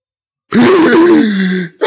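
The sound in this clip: A man imitates sleep apnea snoring with one long, loud, groaning vocal drone that wavers in pitch, then cuts off abruptly into silence before a short burst of voice.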